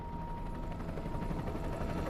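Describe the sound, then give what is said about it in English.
A helicopter lifts off, its rotors and engine making a loud, continuous, rumbling roar that holds steady throughout. “The helicopter door closes and it lifts off.”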